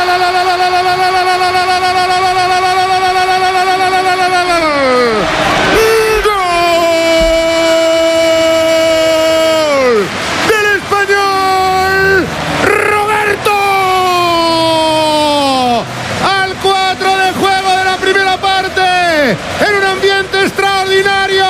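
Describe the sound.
Home crowd roaring and chanting in a packed white-and-blue stadium during a football match, loud sustained massed voices holding long tones that repeatedly sag in pitch, continuing without a break.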